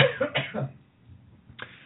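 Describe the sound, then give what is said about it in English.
A man coughs in a quick run of harsh bursts, then a short pause, then one more single cough, all moderately loud. “Excuse me, cough time.”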